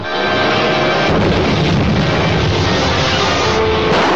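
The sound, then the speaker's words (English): A ray gun sound effect fires in a science-fiction adventure drama, a loud, continuous roaring blast that fills the whole clip with dense rumbling noise. “There he is. On target, steady as she goes. Firing ray gun.”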